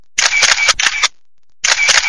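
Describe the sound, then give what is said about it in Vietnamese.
A camera shutter clicks as photos are taken with flash. Three sharp, loud bursts of rapid clicking are separated by short silences, with the last burst after a longer gap. “bấm máy chụp một vài bức ảnh từ phía sau lưng Trang Điệp.”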